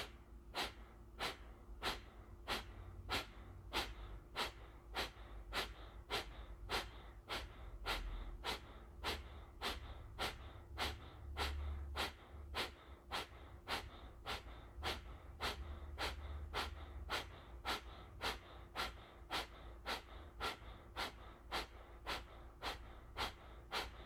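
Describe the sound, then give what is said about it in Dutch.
Forceful, sharp exhales pushed out through the nose in kapalabhati yoga breathing. Many short, even puffs repeat at a steady, quick pace of about one per second, with no talk over them. “Adem weer helemaal uit door de mond. Adem voor de helft in. Kapalabhati.”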